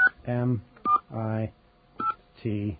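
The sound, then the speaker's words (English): Telephone keypad DTMF tones as a caller spells a last name into an automated phone directory: three short, sharp beeps, each followed by a spoken syllable. “Your name, dial your last name. Hang on, I'm going to spell Smith,”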